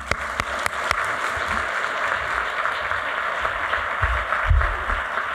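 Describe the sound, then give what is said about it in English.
Audience applause for a panel at a public event, steady dense clapping of many hands at moderate loudness throughout, with a few sharper individual claps standing out near the start. “a big, big, big round of applause for all of our panelists and Justice Curiel”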